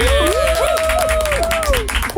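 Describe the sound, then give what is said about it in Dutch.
Warm applause greets a guest on a radio programme: a steady clatter of clapping lasting about two seconds, with a melodic tone running over it. “Mag je een warm applaus voor niemand minder dan Jos Smeltzer, oftewel La Fuente!”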